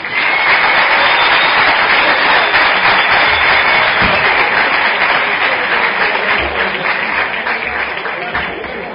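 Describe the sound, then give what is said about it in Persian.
Audience applause, a dense and loud wash of many hands clapping that holds steady for about nine seconds before easing slightly toward the end. “ظاهرا تشویق کنید.”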